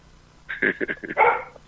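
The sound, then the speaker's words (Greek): An expensive farm guard dog howls as if singing, a few short tonal yelps giving way to a longer wavering wail, fairly faint and alone over quiet background. “Πανάκριβο σκυλί. Πανάκριβο, εκεί πέρα. Δεν αφήνει ούτε πολύ πετούμενο να κατεβεί στο... Το έχεις μάθει να τραγουδάει.”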